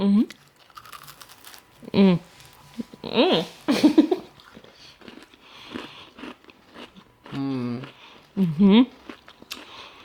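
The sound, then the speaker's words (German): Lip smacking and chewing while eating food, a run of wet, crinkly bites and smacks, with brief voiced murmurs in between. “Geschmatzt? Also mir schmeckt. Ich habe gesagt, halt geschmatzt. Ja, ach, mir schmeckt. Schmatzen heißt, es schmeckt.”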